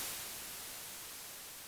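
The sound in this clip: A steady, faint white-noise hiss runs unchanged for the whole short stretch, with no other sounds.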